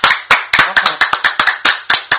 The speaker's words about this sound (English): that's real clap. Yes, it is.